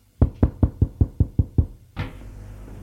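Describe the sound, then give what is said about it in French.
Knocking on a door: eight quick, evenly spaced raps with a hollow thud, followed by a brief burst of broader noise that trails off into a low hiss. “L'on frappe.”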